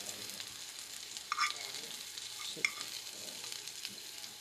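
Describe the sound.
Food sizzles and hisses in a frying pan as it is stirred in a kitchen, a steady, fairly faint crackle broken by a couple of sharp utensil clinks.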